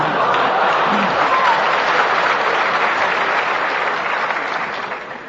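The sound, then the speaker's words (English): An audience applauds at a lecture with dense, steady clapping that holds throughout and fades slightly near the end. “that sort of applause reminds me of the fact that in Indiana everybody applauds ballet dancers”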